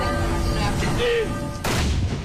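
An army fires a salute salvo in Norway to honour a late king: a single sharp, booming report breaks in near the end over a steady low hum and faint tones.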